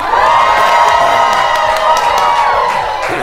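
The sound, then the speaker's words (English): A live audience at a happy-hour event in a lounge cheers, whoops and shouts. The roar of mixed voices is loud and steady from start to finish and eases off only slightly at the very end. “Let's hear you folks make a little noise.”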